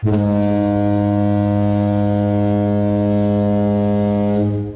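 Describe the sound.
A single long horn blast used as a sound effect to censor speech, holding a loud, steady, buzzy tone at one pitch for nearly five seconds.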